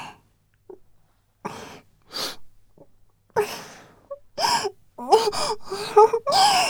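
Tearful crying for joy, with gasping sobs and breathy, wailing cries in many irregular bursts separated by short silences, growing louder and more voiced toward the end.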